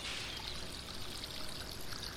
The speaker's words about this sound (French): Une fontaine, oui. Une fontaine. Alors que votre regard se rapproche de cette fontaine,